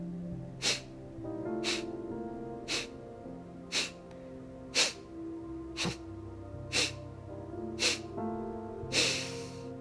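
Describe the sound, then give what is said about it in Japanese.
Kapalabhati breathing, with about nine sharp, forceful exhales through the nose at a steady pace of roughly one per second. Each is a brief breathy burst over a sustained tonal background, and the last one is slightly longer. “息を吐いて吐いて吐いて吸ってカパラバティ吸”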